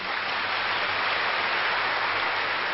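Clapping from many hands forms a dense, even patter that stays at a steady loudness throughout, with no voices standing out.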